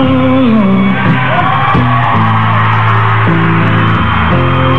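Loud music plays alone as a return-from-break bed, with sustained, layered chord tones that change roughly every second and hold at a steady level throughout.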